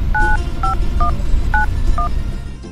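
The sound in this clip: Telephone keypad dialing tones: five short, clear dual-pitched beeps in an uneven rhythm, each held briefly, over a steady, fairly loud background noise.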